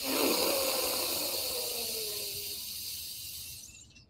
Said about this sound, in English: let's find that deepest breath of the day. Here we go. 3, 2, 1.